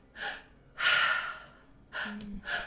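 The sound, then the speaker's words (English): Breaths drawn and released through the mouth in a belly, chest, then release pattern: four breathy rushes of air, a short one, a long loud one, then two shorter ones close together, with no talking. “the triactive breath is all through the mouth, and it is a belly, chest, and then a release. So it's belly, chest,”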